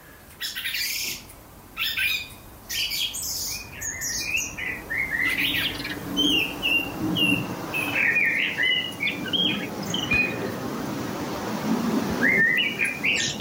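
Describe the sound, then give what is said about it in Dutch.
A blackbird practises subsong in bushes, a rambling run of high twitters, chirps and soft whistled phrases broken by short pauses, sung at moderate volume. “Subsang wordt dat wel genoemd. Dat lat ligt nog niet al te hoog, maar je hoort er al wel een merel in.”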